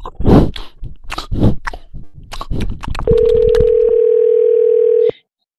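Telephone dial tone after a disconnected call: a loud, steady single-pitched hum lasting about two seconds, then an abrupt stop. Smacking, chewing-like mouth noises and plops come before it.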